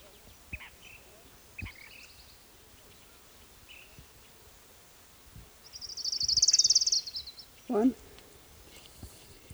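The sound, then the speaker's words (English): Orange-crowned warbler song: a single fast, high-pitched buzzy trill lasting about a second that stands out against a quiet background scattered with faint short chips and notes. “here's orange-crowned warbler number one”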